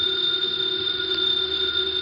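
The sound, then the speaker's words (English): A house telephone rings with a steady, continuous electric bell tone that holds at an even, fairly loud level for about two seconds, with no talk over it. “The phone is ringing. Let it ring.”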